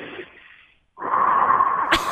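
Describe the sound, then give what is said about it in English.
Deep breathing taken to calm down in a stressful moment: after a short silence comes a long, airy rush of breath that stays steady and fairly loud until the end. “I just start breathing”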